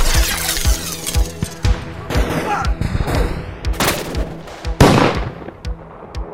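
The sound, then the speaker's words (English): Blaster guns fire in a gunfight, with many sharp bursts in quick succession and loud cracks mixed with whining, sweeping tones. “Blaster!”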